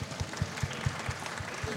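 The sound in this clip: Audience applause at a film screening event, a dense steady wash of clapping with soft rhythmic thumps underneath, fairly even in loudness throughout.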